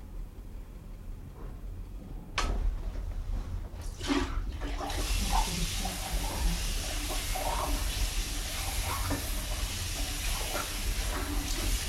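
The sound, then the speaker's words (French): Clean water is poured in a steady, hissing stream that begins after a few soft knocks and runs on evenly to the end. “Je vais mettre maintenant de l'eau propre encore.”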